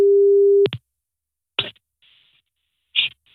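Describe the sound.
A steady telephone line tone sounds while a call is placed. It cuts off abruptly after a moment and gives way to a few sharp clicks and faint noises separated by silence.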